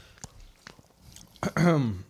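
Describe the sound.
Faint, soft chewing of a Hawaiian roll soaked in beet juice, with a few quiet moist clicks, then a louder hummed voice at the end.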